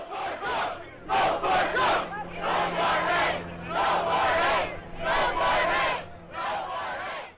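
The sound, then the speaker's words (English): Supporters and protesters at a political rally shout and cheer in loud, rhythmic bursts like a repeated chant, each burst separated by a short lull, over a low steady hum. “Supporters and protesters cheered into the night, even as the rally came to a close.”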